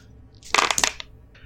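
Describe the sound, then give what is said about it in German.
Four dice rolled during a tabletop role-playing game make a short burst of rattling, clicking clatter that settles after about half a second, followed by a faint scrape. “Das heißt, ich werf jetzt insgesamt 4 Würfel.”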